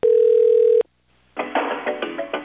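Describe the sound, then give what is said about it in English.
A telephone dial tone hums steadily as a caller phones a school district office, then breaks off. After a short silence comes a run of noisy, uneven bursts as the number is dialed. “So I picked up the phone and started dialing.”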